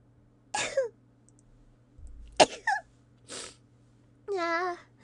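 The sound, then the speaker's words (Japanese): A person with a cold sneezing a few times in a row. Each sneeze is a sharp, breathy burst with quiet gaps between, set against a faint low hum, and a brief voiced sound comes at the end. “やば、くしゃみ出そう。失礼しました。くしゃみしちゃった。”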